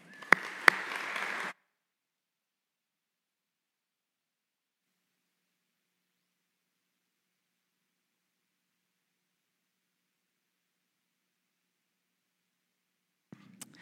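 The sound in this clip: A short burst of audience applause welcomes a speaker at an event, dense clapping lasting about a second and a half. Silence follows, with a faint sound only at the very end.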